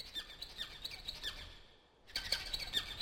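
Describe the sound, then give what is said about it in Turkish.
An Indian nightingale calls in a run of high, sharp chirps repeated at a quick, uneven rhythm. It falls quiet for a moment, then resumes with the same bright, fairly faint notes. “İşte, işte Hint bülbülü. Sen tam aradığım kuşsun.”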